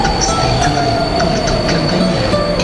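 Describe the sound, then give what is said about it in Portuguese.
An intercity long-distance train rolls by with a loud, continuous rumble and sustained high metallic wheel squeal over constant rail noise. “Senhores passageiros, um comboio de intercidades. Sintem o longo curso.”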